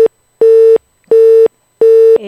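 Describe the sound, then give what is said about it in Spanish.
A telephone busy tone sounds after a call drops: a clipped beep, then three full beeps of one steady, loud mid-pitched tone, evenly spaced by short silences. “Se nos ha cortado. Hoy llevamos un día con el teléfono bastante malo.”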